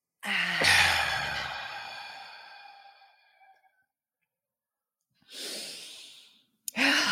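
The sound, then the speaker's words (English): Deep breathing in and out: a long, audible, airy breath with a slight sighing tone fades away slowly. After a silent pause, a second softer breath follows, and a third breath begins right at the end. “Take a deep breath in.”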